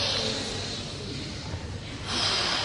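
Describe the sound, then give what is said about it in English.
A deep cleansing breath drawn in through the nose during a group breathing exercise. The breathy, airy hiss is loud at first, eases off in the middle, then swells again toward the end. “we're going to take a cleansing breath. Follow me in through the nose. Hold it. Let's do another one. Cleansing breath.”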